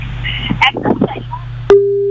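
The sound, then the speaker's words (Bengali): Busy tone after a phone call is disconnected. A steady, loud tone begins abruptly after brief talk and continues alone to the end. “বন্ধুর সঙ্গে তো যোগাযোগ বিচ্ছিন্ন হয়ে গেল।”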